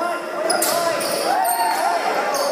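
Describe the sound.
Basketball bouncing at a basketball game: a few thumping bounces ring out over steady crowd noise and voices.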